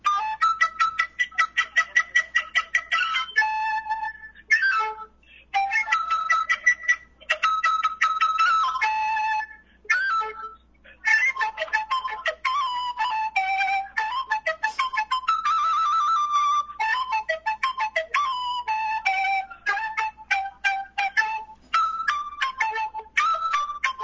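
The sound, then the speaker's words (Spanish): A quena flute imitates birdsong in a long solo of rapid, high trills and warbling phrases. It pauses briefly now and then and stays fairly loud throughout, with no voices. “¿tiene ahí en sus manos la quena en este momento? Sí, aquí tengo. ¿Puede adelantarnos ya un poquito del canto de un pájaro que estará? Claro, les puedo tocar un fragmentito.”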